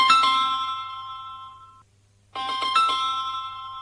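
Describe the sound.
A phone rings with an incoming call: a bright electronic ringtone of chiming, stacked notes plays in two bursts separated by a brief silence, alone and fairly loud.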